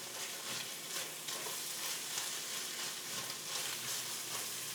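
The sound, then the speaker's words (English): A pan of tomato paste sizzles steadily while ground clove and cinnamon are stirred in for a Greek dish. The frying hiss is continuous and even, with soft scraping stir strokes and no talking. “Some nice warm spice in here going in now. And a half a teaspoon of cinnamon. Big stir.”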